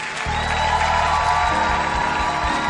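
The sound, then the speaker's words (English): A church audience clapping hands, a steady dense wash of applause mixed with crowd noise and a low droning tone, continuous and moderately loud throughout. “Clap for them. Oh, a mighty hand clap. Your clap is feeble.”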